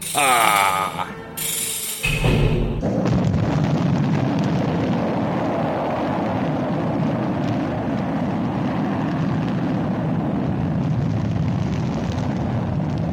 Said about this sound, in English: This rocket ship is breaking away from the Earth with the speed of light, right into the path of the new planet.